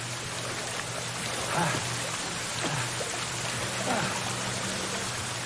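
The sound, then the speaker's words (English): Water drops fall and bounce off stairs in a steady, fine patter. A few slightly louder splashes stand out over the continuous trickling. “Water drops bounce off the stairs.”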